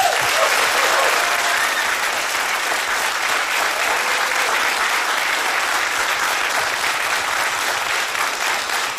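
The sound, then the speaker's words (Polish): Audience applause, a dense and even wash of many hands clapping that stays loud and steady from start to finish with no break. “Proszę o wielkie brawa.”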